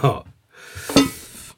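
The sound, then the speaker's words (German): A lid lifts off a cooking pot of asparagus with a soft, hissing rush and one brief metallic clank, after a short burst of voice at the start. “jetzt nimm doch schon den Deckel vom Topf.”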